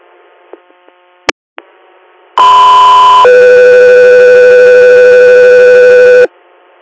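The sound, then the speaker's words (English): Radio dispatch alert tones on an air medical dispatch channel: a loud, steady higher tone under a second long, then a longer, lower sustained tone, preceded by a few faint clicks. “Guthrie Air, stand by for tones.”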